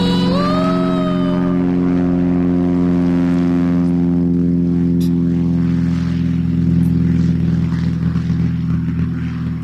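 Spacecraft taking off from Cape Canaveral: a loud, continuous engine drone with heavy low harmonics, a thin whining tone rising early on, and the roar staying steady to the end with no voices.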